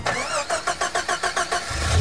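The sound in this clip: A car engine starting: the starter cranks in a quick, even series of pulses before the engine catches and settles into a steady, louder run.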